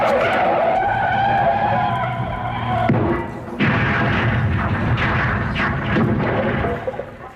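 A comedy sound effect of a car driving into a house: a loud revving engine and screeching skid, then a sudden crash about halfway through, followed by rumbling, clattering impacts.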